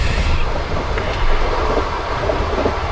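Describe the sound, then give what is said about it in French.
A train travelling on rails, with a continuous low rumble and broad wheel and wind noise. A few faint clicks rise briefly above the steady roar. “on a commencé notre voyage en train”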